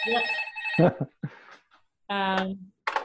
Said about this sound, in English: Oh, my phone.